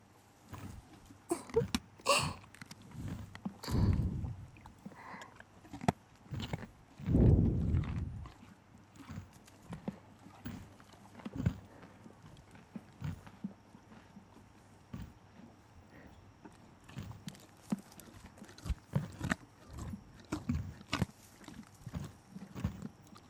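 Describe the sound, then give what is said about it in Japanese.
A horse chews a carrot, giving many irregular crisp crunches and snaps throughout, with a couple of heavier low bumps early on. “人参のお尻の方を持って お馬さんの口元に近づけてあげるだけで。”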